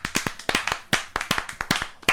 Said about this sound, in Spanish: Claro, un aplauso, por favor.